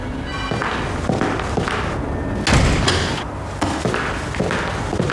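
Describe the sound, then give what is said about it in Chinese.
A door being closed, heard as a single heavy thud partway through, set against dense, busy background sound that continues before and after. “把门关上。”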